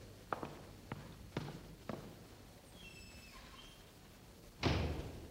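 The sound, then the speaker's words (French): A door being closed in a French stage play, heard as a few faint, soft thumps followed by one louder, fuller thud, all quiet against a hushed background. “Fermez la porte.”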